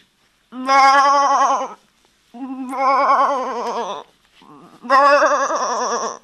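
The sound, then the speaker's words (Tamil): A male goat gives three long, loud, quavering bleats with a strong wavering tremble, and a shorter, weaker call falls between the second and third. “டேய், இது பேர் கெடா.”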